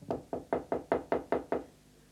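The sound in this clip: Eight crisp, evenly spaced knocks on a door in a quick, steady rhythm, each a dull hollow thud, followed by quiet.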